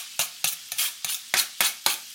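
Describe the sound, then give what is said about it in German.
Onions and bacon fat sizzling as they melt in a pan, heard as seven sharp hissing bursts at a fairly even pace, each flaring up and quickly fading, with no talk. “Jetzt reinschmelzen lassen. Und auch die Zwiebeln dabei.”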